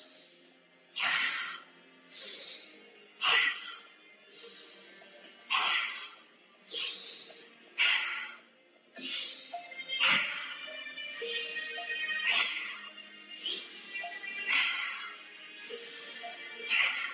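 Deep rhythmic breathing during a guided meditation breathwork session: forceful inhales and exhales repeat steadily about once a second, loud and breathy, with no talk over them.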